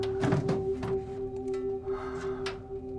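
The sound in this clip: A man rummages through drawers on shelves, producing a few dull thunks and knocks, with a cluster of bumps early on and another sharp knock near the end, all over a steady low tonal hum.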